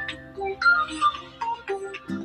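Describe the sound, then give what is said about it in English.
A mobile phone ringtone plays a short electronic melody of clear, steady tones that step between pitches, with no talk over it. “Excuse me, I thought I had turned my phone off. Well, I'll do it now.”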